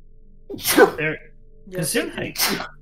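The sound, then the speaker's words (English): A sharp human sneeze during a tabletop role-playing game, as one burst of breathy noise against a quiet background, followed by a few further short vocal bursts. “You don't have to sneeze on me”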